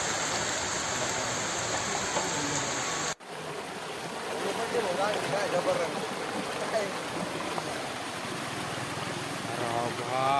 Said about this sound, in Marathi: पहिल्याच पावसामध्ये नदी ओढे तुडुंब भरून वाहत आहेत